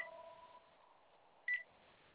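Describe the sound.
A phone beeping during a call: one short, bright electronic beep sounds over a faint line hiss, after a quieter tone that fades out early on.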